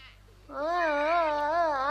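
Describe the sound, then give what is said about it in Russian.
A baby cries after a short quiet lead-in: one sustained, wavering wail that holds steadily to the end. “Не плачь, не плачь, маленькая.”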